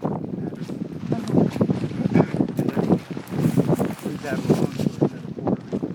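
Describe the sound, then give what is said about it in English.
Wind gusting across a small nonprofit farm buffets the microphone in strong, uneven roaring surges, with muffled voices talking underneath throughout. “You'll have to forgive us for the times when the wind drowns out our conversations. It's kind of a theme for this episode.”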